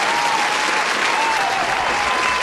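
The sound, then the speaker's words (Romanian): Dense, steady applause for children, a crowd clapping loudly and evenly without a break from start to finish. “haideți să-i aplaudăm pe toți copiii”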